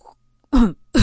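A man gives a dry cough: a faint brief sound, then one loud, rough, throaty burst, with the start of a second burst cut off at the end.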